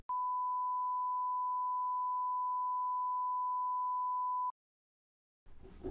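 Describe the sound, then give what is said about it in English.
A censor beep: one steady, pure, mid-pitched electronic tone held for about four and a half seconds, followed by a short silence and a brief burst of faint noise. “if this is false, all you should be hearing right now is just a massive beep.”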